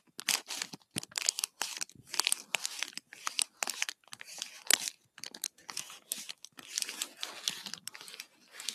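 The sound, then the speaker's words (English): Crinkling of a plastic package, many crisp, irregular rustles and crackles in quick, uneven bursts, fairly faint and alone with no voices. “Or crinkles of a package.”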